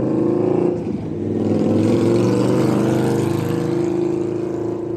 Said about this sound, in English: And I do apologize about that. That was a motorcycle that went by.